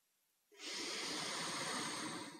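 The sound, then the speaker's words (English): One long, deep breath drawn in through the nose: a steady, airy hiss that starts suddenly after a moment of quiet and holds at even loudness until it tapers slightly at the end. “Let's take a deep breath in through the nose”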